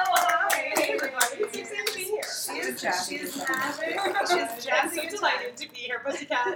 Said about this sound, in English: So we got to put your hands together for Selena.